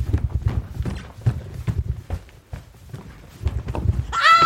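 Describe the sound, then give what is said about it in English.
Footsteps running up a staircase make a quick series of dull, rhythmic thuds that slow briefly midway and then pick up again, fairly loud throughout. “don't run up the stairs.”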